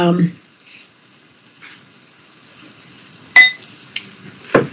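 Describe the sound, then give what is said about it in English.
Bowls are played as instruments. A few sharp metallic strikes each ring briefly with a clear high tone, and quiet stretches separate them. “we don't have music, but I'm going to go ahead and play the bowls behind me.”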